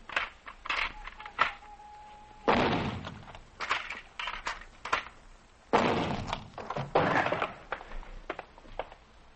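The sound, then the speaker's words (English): Heavy thunks and crunching breaks come from a heavy locked door as it is forced and pushed open. A few loud, sharp impacts stand out among lighter knocks and rattles, with no talk. “Man, give me the shotgun. Get out of the way. I'm going to blast the lock, then push my way in.”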